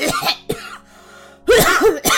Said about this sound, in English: I just had a bit of a coughing fit.